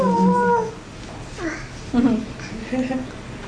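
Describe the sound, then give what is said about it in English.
A dog howls and whimpers in a few drawn-out, wavering tones that slide up and down in pitch. The calls are moderately loud over a noisy background. “My dog.”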